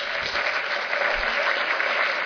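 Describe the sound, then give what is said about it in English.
An audience applauds the panelists at the close of an event with a steady, even round of clapping that holds at a moderate level throughout. “If we could have one more round of applause for the panelists.”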